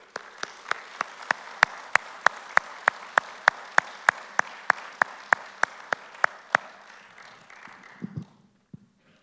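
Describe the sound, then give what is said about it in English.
An audience applauds to welcome a speaker, a soft wash of clapping punctuated by many evenly spaced sharp claps that keep a steady beat before stopping and trailing off into a few scattered taps. “Can we please put our hands together and give Jazz a warm welcome?”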